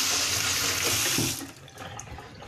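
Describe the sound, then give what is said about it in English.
Water runs from a kitchen tap while hands are washed in a small kitchen: a bright, steady rushing hiss that stops abruptly partway through, leaving only faint, quieter handling sounds afterward. “Just have to wash my hands first.”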